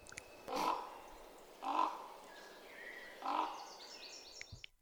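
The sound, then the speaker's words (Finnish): Distant raven giving three rough, knocking calls, evenly spaced and faint, on a nearly windless morning as fog clears, with a few thin, high chirps from other birds toward the end. “kaukaa juuri erottuva korpin karkea hakkaava.”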